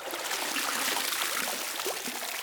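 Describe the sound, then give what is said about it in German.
Water splashing and streaming off as someone climbs out of a bathtub in soaked clothes, a dense, steady hiss of running and trickling water throughout. “Und ich empfehle mich jetzt aus der Wanne und gehe ans Klavier.”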